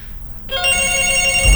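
A phone ringing on an outgoing WhatsApp call: one steady, bright ring tone with several stacked tones, lasting about a second after a short quiet start, with no talk over it.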